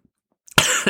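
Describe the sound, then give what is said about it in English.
A person coughs after choking on their own spit, a single brief, harsh burst that breaks out suddenly after near silence. “You're so tired, you just decided to choke.”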